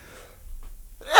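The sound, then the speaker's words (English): A single sneeze bursts out at the very end after a stretch of near silence. It is sharp, breathy and loud. “and with that sneeze”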